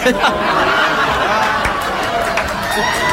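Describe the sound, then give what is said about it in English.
Studio audience chatter forms a dense, steady babble of many overlapping voices, fairly loud throughout. “So, I started to laugh, and then I heard all these other voices. Like, what's going on? Yeah, it's the studio audience.”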